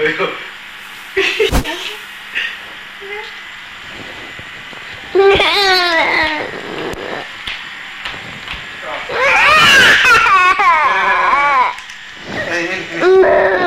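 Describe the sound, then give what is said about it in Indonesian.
A young child crying in a few bursts of wavering, high wails, with quieter stretches between them and other voices talking. “Jangan sampai nangis gitu.”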